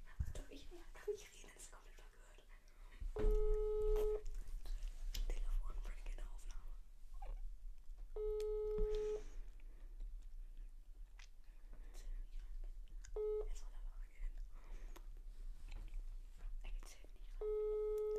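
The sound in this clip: An unanswered phone call gives a ringback tone: four evenly spaced, buzzing beeps, about five seconds apart, the last one cut off. Quiet voices whisper and murmur underneath.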